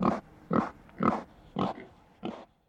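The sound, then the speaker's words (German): An alpine pig on a Swiss mountain farm grunts five times, short, coarse, fairly evenly spaced bursts with quiet gaps between. “2 Alpschweine sind auch da. Glücklicherweise ist eines davon so zahm, dass Jonas ab und zu auf ihm reitet.”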